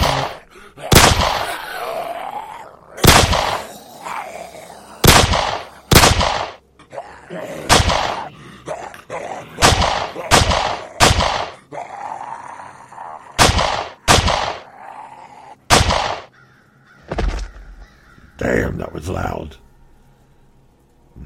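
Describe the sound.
Gunfire in a video game: many loud, sharp shots ring out singly at irregular intervals, each with a brief booming tail.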